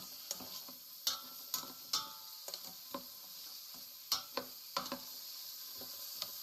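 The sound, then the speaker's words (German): Nuts being stirred into a cinnamon-spiced stew in a pan make a long run of irregular scrapes and taps, with a soft sizzle between them and no talk. “Nuss hau ich auch immer ein bisschen mit rein. So. Lass mal ein bisschen vermischen hier.”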